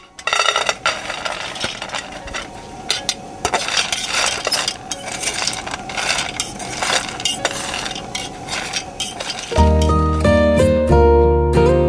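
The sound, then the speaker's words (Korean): Coffee beans being roasted in a pan rattle and scrape in a busy stream of quick clinks and clatters, steady and fairly loud, before music takes over near the end. “그리고 천천히 조심스럽게 커피콩을 볶기 시작했어요.”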